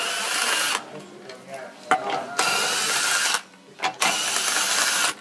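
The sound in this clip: A ratchet socket tightens the wheels on a toy car in pit-crew style, giving bursts of dense, rapid clicking whirr broken by a few short pauses, with voices talking at moments.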